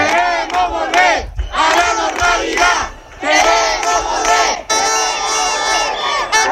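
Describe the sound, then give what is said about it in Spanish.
A night street protest crowd in Ceuta shouts and chants in four loud bursts separated by brief pauses, with many voices joining each phrase. “Este que escuchan es el sonido de la protesta de esta noche en Ceuta.”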